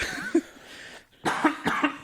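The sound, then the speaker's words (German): A person coughs, giving a few harsh, breathy bursts in quick succession after a quieter stretch. “Entschuldigung, da muss ich wirklich husten.”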